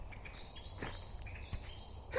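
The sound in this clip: Agitated birds chirping: faint, thin high-pitched chirps and calls that come and go in short bursts over a soft, low background rumble.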